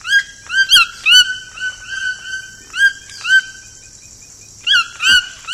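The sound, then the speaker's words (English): A toucan gives a series of piercing, cheerful yelps in a humid tropical rainforest. The bright, high calls come in short, uneven bursts with brief quiet gaps between them. “Could this piercing and cheerful yelp be the same sound you remember from a Saturday morning in your childhood? It's the call of the toucan, the tropical icon”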